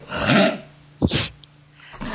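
Someone clears their throat to get rid of a tickle, giving a couple of rough, raspy bursts separated by a short pause, with a fainter breathy sound near the end.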